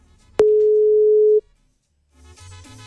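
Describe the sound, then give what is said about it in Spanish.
A telephone dial tone sounds while a caller dials a listener's number: one steady low hum switches on sharply, holds for about a second, then cuts off into silence before a buzzing, harmonic tone starts. “Vamos a llamar entonces, vamos a llamar a este oyente. Aquí estamos marcando.”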